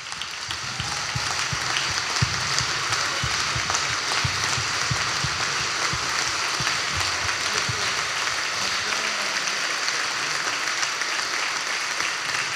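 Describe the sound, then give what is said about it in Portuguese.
Audience applause for Álvaro Costa at a comedy roast. It swells in the first second, then settles into a long, even wash of many hands clapping, and the low rumble thins toward the end. “eu antes de me ir embora quero pedir um grande aplauso, um grande aplauso para o meu amigo Álvaro Costa.”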